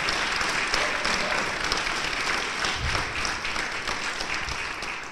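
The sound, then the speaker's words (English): Audience applause rings out in the Great Dinosaur Hall of a natural history museum for a dinosaur panel at a live event, a thick, steady clatter of many hands that eases off slightly toward the end. “Live from the Great Dinosaur Hall of the Peabody Museum in New Haven, let's hear it, audience, for our dinosaur panel.”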